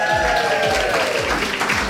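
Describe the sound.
Applause for a competition winner, a dense, steady patter of many hands that continues throughout, layered over music with sustained tones and a regular low beat.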